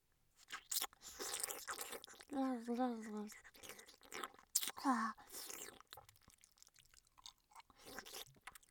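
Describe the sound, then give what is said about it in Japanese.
Wet ear-licking mouth sounds: soft smacks, clicks and slurps recur irregularly at low volume, broken by a couple of brief voiced murmurs. “次は耳を舐めるんですね。はい、パパのお耳いただきます。”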